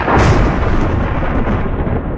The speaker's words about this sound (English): The odds of being struck by lightning are less than 1 in 1 million. But when you hear this sound,